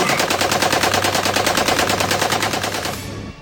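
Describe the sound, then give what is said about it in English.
A .50 caliber machine gun fires from a roof turret in one loud, rapid, continuous rattle of shots that lasts about three seconds, then tails off abruptly. “you're gonna man that 50 cal on the roof turret”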